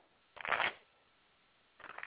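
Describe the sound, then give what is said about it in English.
A deck of playing cards is shuffled in two brisk riffling bursts, a louder rattling flutter first, then after a pause a shorter, softer burst. “All right, shuffle the cards here.”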